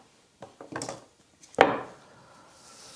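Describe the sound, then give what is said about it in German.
A one-metre piece being cut through: a few soft scraping handling noises, then a single sharp snapping cut that trails off into quiet. “Da ist 1 Meter. Und da schneide ich das durch. Zack.”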